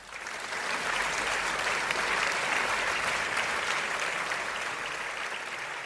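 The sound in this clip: Audience applause greets a guest joining a talk show, a dense, steady wash of clapping that swells in within the first second and carries on evenly for several seconds, easing only slightly toward the end.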